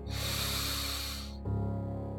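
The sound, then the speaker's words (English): Deep inhale through the nose during a relaxation exercise: a long, steady, breathy hiss lasting about a second and a half that stops abruptly, with soft sound continuing afterward. “Take a nice, good, deep inhale through your nose.”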